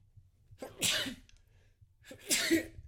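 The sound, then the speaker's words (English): Allergy sneezes from a man, two sharp, explosive bursts about a second and a half apart, each with a breathy lead-in and separated by quiet. “Oh, I didn't pause quick enough. I sneezed like five times in in a row as fuck.”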